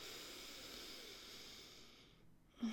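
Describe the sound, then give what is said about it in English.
A deep breath during a guided breathing exercise: a long, steady airy hiss of air that gradually fades, then a short, slightly louder sound just at the end. “Just take a few deep breaths in for me, okay, babe? Deep breath in and out. Deep breath in.”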